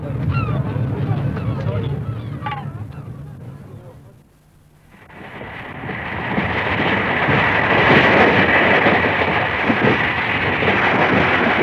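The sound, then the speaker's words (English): Hundreds of noisy school children chatter aboard a train that left Folkestone. Voices are heard at first, then a short lull, then a dense, loud, continuous din of mingled voices that holds steady to the end. “We left Folkestone at 12:30, and despite the hundreds of noisy school children which you can hear behind me”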